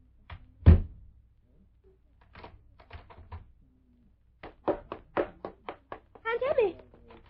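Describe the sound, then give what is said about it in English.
A door is shut and locked: one heavy thud, then after a pause a run of sharp clicks and small rattles, irregular and fairly loud against near silence. “She's locked me in! She's locked me in!”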